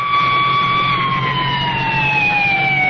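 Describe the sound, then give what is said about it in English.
An ambulance siren wails as the vehicle pulls away from a highway accident where a sedan lies overturned. One loud, steady tone slowly falls in pitch. “An ambulance swings away with its passenger.”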